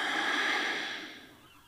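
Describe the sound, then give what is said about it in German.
A slow breath out during a yoga thigh stretch makes a soft, airy hiss that is strongest at first and then fades away over less than two seconds. “Genieß diesen Stretch im Oberschenkel. Atme nochmal ein und aus.”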